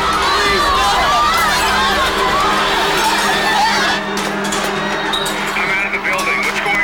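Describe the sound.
A crowd rushes for the exits of a ballroom after a stun grenade goes off. Dense, loud shouting and chatter run unbroken through the whole clip, with no separate events standing out.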